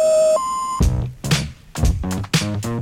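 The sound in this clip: Telephone signal tones like those announcing a collect call: a steady lower electronic beep, then a higher one, together lasting under a second, giving way to louder, choppier harmonic sounds.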